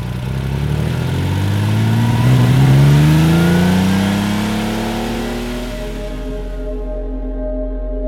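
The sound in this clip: A car without power steering revs its engine as it drives off. The engine note climbs in pitch, then settles and gradually fades into a steady hum.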